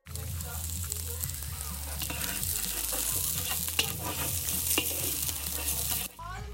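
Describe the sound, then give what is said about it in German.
Chili is stirred in huge cooking pots over a gas stove in a wooden tent-camp kitchen, a steady loud wash of scraping and sizzling with occasional clanks that drops away abruptly near the end. “wir kochen jetzt in diesen riesigen Kochtöpfen hier über einem Gasherd zusammen ein Chili sind Garne.”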